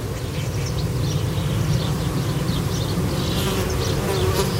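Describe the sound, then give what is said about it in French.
Insects buzz densely inside an insect hotel on a very hot day, picked up with a parabolic microphone held close. A continuous low hum carries faint, flickering higher whines of individual wings. “vous approchez votre parabole de l'hôtel à insectes. On entend quand même que ça grouille, hein.”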